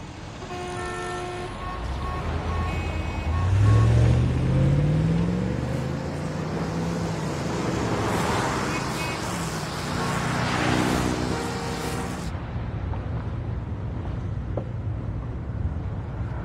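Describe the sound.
A car driving on a road gives a steady rumble of engine and road noise, with a few horn toots cutting through at the start and a rising engine tone partway through.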